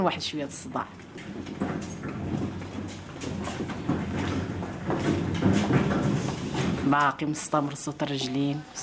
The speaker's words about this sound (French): La calèche qui passe.